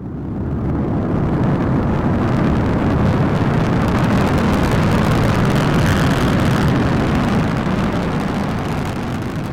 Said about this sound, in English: 10, 9, 8, so on and so forth. 3, 2, 1, blast off!